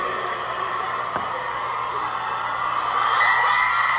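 A huge concert crowd in Buenos Aires screams on request from the performer, a dense, continuous wall of high shrieks and cheers that holds steady and swells slightly louder toward the end.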